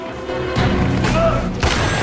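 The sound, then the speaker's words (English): A man is rammed with a trolley in a film scene, producing two loud, broad crashing impacts over a rumbling background. “As the torch shoots his mother's body, Jake rams him with a trolley.”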